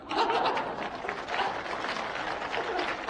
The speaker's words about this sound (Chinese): 因为女同胞的掌声比较持久